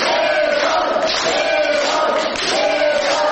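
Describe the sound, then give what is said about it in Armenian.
Supporters chant in unison in a courthouse yard, welcoming a detained opposition activist. The crowd's voices are loud and continuous, with a steady, rhythmic swell that holds throughout. “Իսկ Գևորգ Սաֆարյանին համակիրները վանկարկումներով ու ծափերով դիմավորեցին։”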